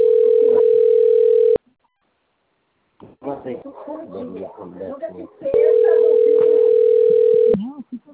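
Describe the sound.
A telephone tone sounds after a dropped call: two long, steady, mid-pitched beeps, each about two seconds. They are separated by silence and then a stretch of talk.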